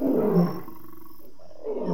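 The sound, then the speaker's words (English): Male lion roaring at night directly behind a tent beside a river: a deep, rough, loud roar that drops into a lower grunting tail before another call begins, with no voices. “which is a male lion calling directly behind the tent.”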